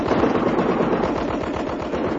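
Sailors' machine guns fire in battle, a loud continuous stream of rapid shots rattling at an even fast rhythm without pause.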